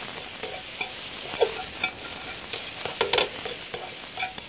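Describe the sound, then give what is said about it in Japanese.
Vegetables stir-fried over high heat to draw out bitterness sizzle steadily while a utensil scrapes and clacks against the pan in irregular bursts, moderately quiet with no talk. “ちょっとアク抜きのために強火で炒めていきます。”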